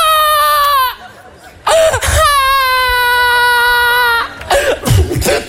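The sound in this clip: A baby cries in two long, loud wails, each sliding down in pitch. A short pause separates them, and the crying ends in choppy whimpers and coughs.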